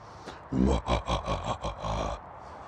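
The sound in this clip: A human voice imitates a growl with the microphone right at the throat, giving a loud, raspy, pulsing rumble of about six throaty bursts in quick succession before it trails off.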